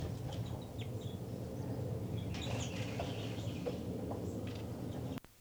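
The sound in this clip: Birds calling back and forth at the nest: faint, scattered chirps and short calls over a steady low background hum, with a sharp click at the very end.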